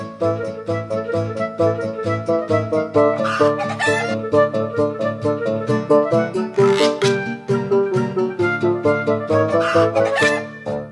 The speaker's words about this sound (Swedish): Men hönorna brydde sig inte om vad gubben sa. Mask var det bästa de visste.